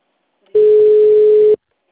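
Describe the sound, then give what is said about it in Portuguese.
A telephone dial tone while placing a call to the city council: one steady, loud, pure hum lasting about a second that starts and stops abruptly, alone with no talk. “Tô ligando lá na Câmara Municipal.”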